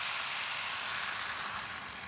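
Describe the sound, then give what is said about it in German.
A hot pan is deglazed, giving off a steady, fairly faint sizzling hiss that holds for about two seconds with no talk. “Jetzt lösche ich ab.”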